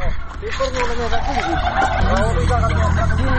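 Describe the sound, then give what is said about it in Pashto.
Turkeys gobble and call excitedly as handfuls of corn kernels are tossed to them at feeding time. Many loud, overlapping warbling calls run without a break throughout. “فیلمرغانو هم د خوړو په لیدو سره شور جوړ کړی.”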